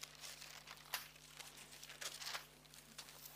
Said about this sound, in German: So, heute ganz viel blättern. Wenn wir in Hiob gehen, kurz vor dem Psalmen, Hiob 38,